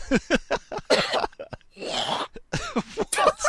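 Repeated harsh coughs and throat-clearing from a man choking on a small bit of food stuck in his throat, many rapid loud bursts with a brief strained pause midway.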